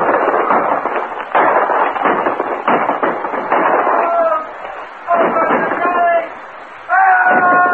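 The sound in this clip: Gunfire in a battle at a frontier stockade under arrow attack: dense volleys of sharp popping shots in loud bursts separated by brief gaps, with men shouting over the shooting.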